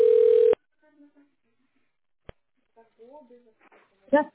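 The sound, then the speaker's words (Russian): A phone call connecting to an operator: a short steady electronic telephone tone, then silence broken by a single sharp click, followed by faint scattered voice fragments. “Соединяюсь с оператором.”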